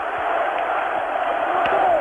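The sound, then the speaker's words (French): Archival recording of a crowd in Algiers cheering de Gaulle, a dense, continuous roar of many voices, loud and steady throughout, with a thin, muffled quality. “Entendez la foule qui l'acclame, de Gaulle, de Gaulle !”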